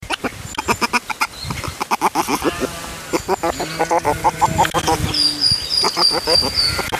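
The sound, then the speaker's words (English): Baby river otters chirping: many rapid, squeaky, repeated calls in rhythmic bursts, fairly loud, with some longer, lower harmonic cries mixed in among the higher chirps. “Well, that was the chirping of baby river otters.”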